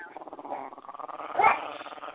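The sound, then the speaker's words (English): A dog growls in a low, continuous grumble that swells louder about midway and then settles again, heard alone without talk. “Someone has a vicious dog, I can tell. Hear it?”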